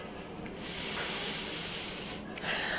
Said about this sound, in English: I need to take a deep breath.